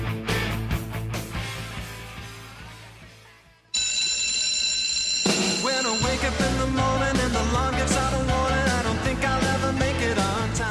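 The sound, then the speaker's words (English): Bright, sustained bell ringing from a 1990s TV sitcom theme song cuts in after upbeat band music, rings alone briefly, then carries on as the full band returns loudly underneath. “you might know what that sound is. That's Saved by the Bell”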